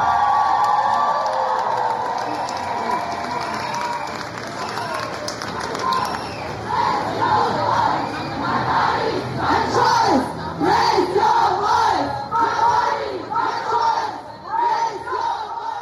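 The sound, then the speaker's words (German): Shouting and chanting rise from a crowd at an International Women's Day protest march in Erfurt's city centre. Early on the sound is a looser din. Later it turns into rhythmic bursts of loud chanting. “So klang es am Sonntag auf der 8. März-Demo in der Erfurter Innenstadt und mitgebracht hat uns die Aufnahme Donata.”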